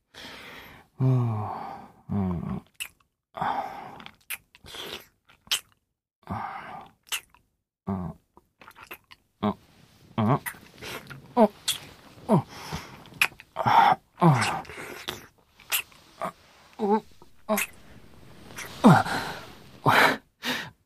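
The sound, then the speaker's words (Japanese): Many short, wet kissing smacks come in an irregular rhythm, mixed with breathy gasps and sighs. The sounds are fairly soft, with brief quiet gaps between bursts. “キス、うまいね。”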